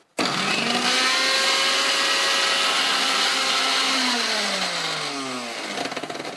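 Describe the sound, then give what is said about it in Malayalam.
A kitchen mixer grinder blends blanched spinach into a paste, its motor starting abruptly into a loud, steady, high whirring drone. The motor's pitch dips and wavers toward the end. “അതിനുശേഷം അത് എടുക്കുക, straight goes മിക്സിയിലേക്ക് പോകുന്നു, അതിനുശേഷം നന്നായിട്ട് അരയ്ക്കുക.”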